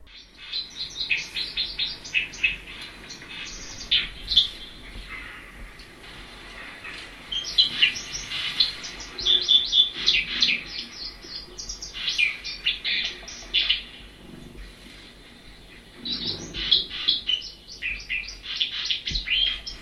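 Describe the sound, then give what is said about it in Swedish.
A white-throated dipper sings beside a constantly rushing stream, with bursts of high, rapid twittering and trills in several phrases over steady water noise. “Det är ju där man hittar dem, och där forsar det ju ständigt, där strömstaren är. Och det gör det även på den här inspelningen, men vi lyssnar på den för att den har ju faktiskt en trevlig sång.”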